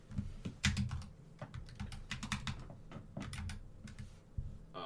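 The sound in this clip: Many quick, irregular keystrokes on a computer keyboard, each a crisp click over a low background hum, sometimes bunched into short bursts with brief pauses between them.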